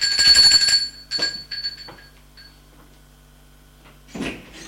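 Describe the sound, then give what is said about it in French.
A doorbell rings at a front door with bright, sustained chime tones that are strongest at the start. A few shorter rings follow, then near silence, and a brief clatter comes near the end. “on a sonné à sa porte. Elle va ouvrir.”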